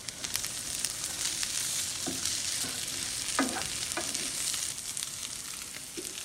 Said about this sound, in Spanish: Y tengo unos Brussels sprouts en el horno y unas salchichas de Marlowe and Sons.